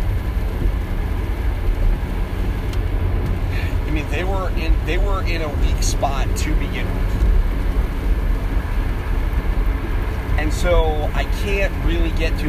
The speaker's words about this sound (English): Let's, I apologize for that noise. There is a giant 18-wheeler trying to pass me on the right.